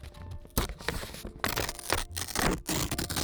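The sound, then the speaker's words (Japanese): A thin paper receipt for hay fever medicine is torn by hand in several sharp, crackly rips, with light rustling between them. “ちょっと普通の紙より軽い音なのかな。レシートはあんま破かないから”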